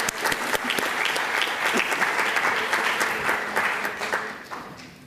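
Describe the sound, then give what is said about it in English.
Audience applause at a conference, a dense, steady wash of many hands clapping that continues throughout and eases slightly toward the end. “So let's give a hand to Andrea. She's right there.”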